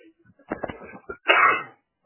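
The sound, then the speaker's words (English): A sneeze from a commentator calling a football game: a few short breathy catches, then one loud, half-second burst. No talk over it. “Had a sneeze right there.”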